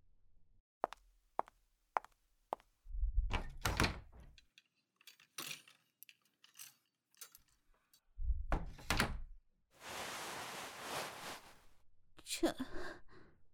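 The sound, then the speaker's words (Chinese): A cabinet door is opened amid a series of handling noises: a few sharp clicks and knocks, heavier low thuds, and a rushing, hissing stretch about two seconds long. The sounds are moderately quiet and come in irregular bursts. “让我打开那边的柜门是吗？嗯，好的。”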